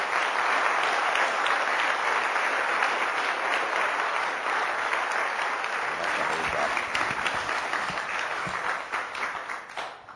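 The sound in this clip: Warm audience applause greeting a speaker at a morning gathering, a loud, continuous wash of clapping from many people lasting about ten seconds, then tapering off at the close.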